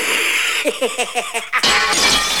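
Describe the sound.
A glass ceiling smashed through bursts into a sudden bright shattering crash, with scattering glass that carries to the end. A quick run of short pitched blips comes just before it.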